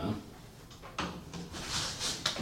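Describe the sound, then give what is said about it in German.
A door is opened: an unlocked bedroom door pushed open by a police inspector at 2 a.m. Faint scraping and soft knocks, ending in a sharper click. “Die Tür ist nicht versperrt, Inspektor.”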